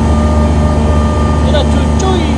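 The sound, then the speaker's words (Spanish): A loud engine at a golf course gives a steady, heavy drone with a constant low hum and tonal whine throughout, and a voice faintly beneath it. “Ahí se oye fuerte el motor.”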